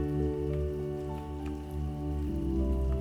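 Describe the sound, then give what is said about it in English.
Gentle raindrops patter steadily on a surface, a soft, continuous spatter over a sustained low drone. “and then back to the sounds of the gentle raindrops”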